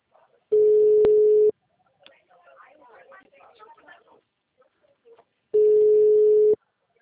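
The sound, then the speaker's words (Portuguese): A telephone call ringing on the line: two long, steady ring tones of about a second each, separated by a quiet gap filled with faint, muffled noise. “Agora que eu vou ligar para ele”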